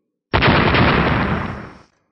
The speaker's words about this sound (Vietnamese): Liên tiếp tiếng nổ rung trời vang lên.